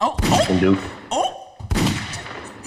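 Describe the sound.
A voice imitates gunfire with a few loud, bursty mouth-made bangs mixed with voiced sounds, as casual talk continues around it.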